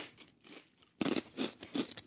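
A rye chip from a snack mix being bitten and chewed gives crisp crunching. It begins quiet, then a few sharp, louder crunches come in quick succession.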